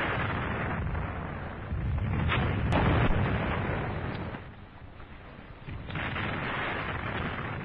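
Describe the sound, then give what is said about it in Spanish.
Small mortars fired by sappers pound the ground in no man's land, a dense, continuous rumble of overlapping booms and bursts that swells and dips over several seconds, loud and without voices. “Si avanza cauti nella cosiddetta terra di nessuno. I guastatori martellano il terreno col tiro di piccoli mortai.”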